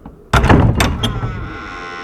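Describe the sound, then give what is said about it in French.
A door opening: one sudden heavy clunk, loud and abrupt, that rings and fades out over the next second or so. “Un petit homme ouvre la porte.”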